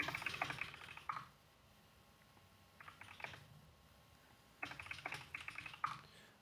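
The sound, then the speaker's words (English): Typing on a computer keyboard: fast, faint clatter of keystrokes in three bursts. The first runs for about a second, the next is short, and the last lasts over a second, with quiet pauses between them. “My hands are getting sore. I don't type this much at work.”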